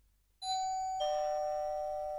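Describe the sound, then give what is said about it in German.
A two-tone doorbell chime rings at the front door of a home: two clear, sustained tones, the second slightly lower than the first, each ringing on and slowly fading. “Es klingelt an Pias Tür.”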